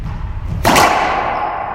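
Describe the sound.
A racquetball serve strikes the crack with a single sharp thud, one loud impact followed by a short ringing decay.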